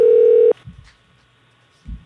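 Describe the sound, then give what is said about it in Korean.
A single short, steady telephone tone of about half a second sounds as a call connects for an interview with a baseball player, followed by a couple of faint low knocks. “그래서 김재훈 선수를 이제 전화 연결해서 직접 한번 이거저거 좀 물어보겠습니다.”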